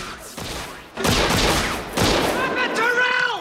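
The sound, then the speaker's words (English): Gunfire in a film action scene on a stage, with a gun aimed at a target: a few loud, broad blasts of shots in quick succession, each ringing out before the next. “The mask bounces across the stage, dodging bullets.”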